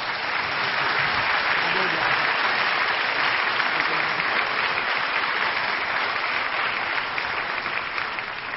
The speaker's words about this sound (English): I'd like you to give a nice hand for Brian Sand and his quintet.